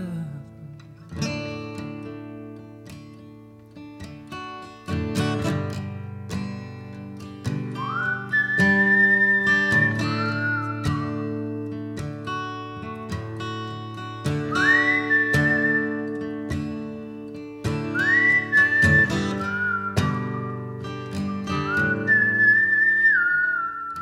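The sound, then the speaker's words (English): A high, clear whistled melody runs through a 2019 indie folk-rock song. Short rising whistled phrases return several times over a steady band accompaniment. “I like the whistling in that song.”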